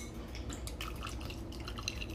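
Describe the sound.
Filtered fridge water is poured into a glass, a continuous quiet splashing trickle with scattered dripping bursts.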